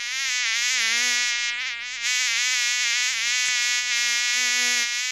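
A loud, continuous buzz of mosquitoes and flies, a dense droning hum rich in overtones that wavers slightly but never stops across the whole stretch.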